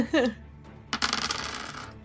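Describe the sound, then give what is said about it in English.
Nine dice roll across a table in a burst of rattling clatter that fades over about a second. A short vocal sound comes just before. “roll 9 base dice.”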